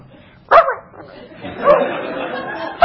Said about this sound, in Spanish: Ahí me pueden sacar este perro de acá. Qué pesado. ¿Qué hace este perro? Qué molesto.